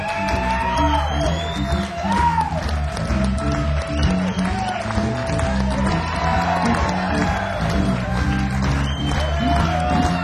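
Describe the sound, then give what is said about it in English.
Audience applause with whoops, shouts and cheering greets a blues guitarist as he is welcomed to the stage, a loud, sustained crowd roar that carries on for the whole stretch. “Put your hands together and welcome Luther Guitar Jr. to the stage, please.”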